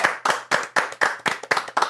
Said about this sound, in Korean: 박수 안 치십니까?